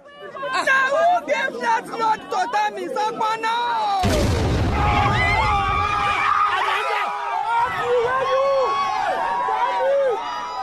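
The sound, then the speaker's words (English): A bomb explosion in a radio drama set at a political rally in Nigeria: crowd voices and chatter, then a sudden loud blast with a deep rumble, after which shouting and babble carry on over a steady roar. “the package actually contained a bomb”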